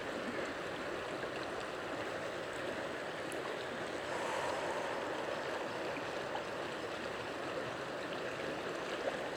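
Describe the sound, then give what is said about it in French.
Steady flowing water, like a nearby stream, rushes and hisses continuously at an even level throughout, with no voices. “Concentrez-vous sur cette eau qui est près de vous. Laissez-vous imprégner par les différentes sensations que vous apporte cette eau.”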